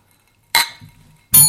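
Glasses clink together in a toast, two bright, sharp strikes with a faint low rumble between them.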